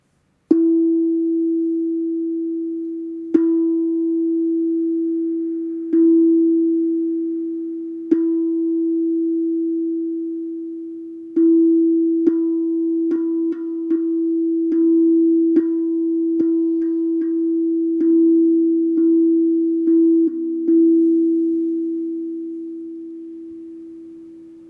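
A pure tone on the note E, played during a solar plexus chakra meditation. It is struck many times, and each strike rings out and slowly decays. The strikes come more closely together in the middle stretch, with no talk.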